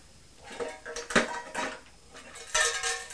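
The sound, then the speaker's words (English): Metallic clattering and scraping as a lid is worked off a tin, with several sharp knocks and rattles over a low, continuous rustle. “Do you like to take the lid off the tin and we'll see if that will go in there?”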